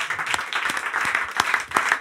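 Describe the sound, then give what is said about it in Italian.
Spontaneous applause from an audience: a short, dense burst of many hands clapping at a steady level for about two seconds. “Grazie, grazie per l'applauso spontaneo!”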